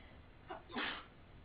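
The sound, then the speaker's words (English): A person sneezes once, a faint, short breathy burst with a slight intake just before the main release, and no other voices around it. “bless you. In India, when someone sneezes, what do you say?”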